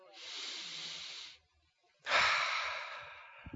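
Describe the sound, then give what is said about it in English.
A deep breath is drawn and let out in two long, airy hisses separated by a short pause. The second hiss starts more sharply and sounds louder, with no talk around it. “I mean, you know how to savor a good breath. Right? Take a good breath.”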